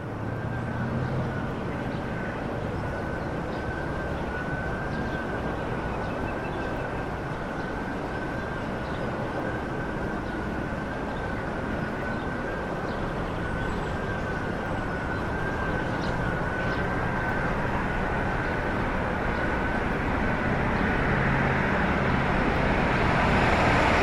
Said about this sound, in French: on est dans une lisière de ville, une petite ville, entre la campagne et la ville, on entend la ville.